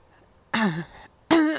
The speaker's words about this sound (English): You don't need to clear your throat